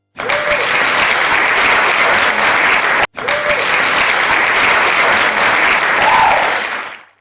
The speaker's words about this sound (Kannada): ತಮಗೆ ಪ್ರೀತಿಯ ಚಪ್ಪಾಳೆ, ಚಪ್ಪಾಳೆಯನ್ನು ಕೇಳಿಸ್ಲೇಬೇಕಲ್ವಾ?